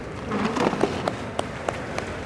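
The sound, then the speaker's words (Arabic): Scattered hand clapping in a soft, steady patter of applause, with a few sharper claps standing out above the bed of sound. “سيب الجوال وصفق لاخوك.”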